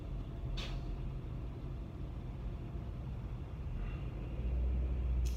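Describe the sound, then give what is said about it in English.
Steady low rumble of bumper-to-bumper road traffic heard from inside a car, faint and continuous, with a few brief high hissing bursts over the drone. “I'm in bumper and bumper traffic right now”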